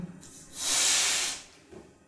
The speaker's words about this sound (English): So as this balloon expands, I'm not going to go farther because I've used it a lot, it's probably weak.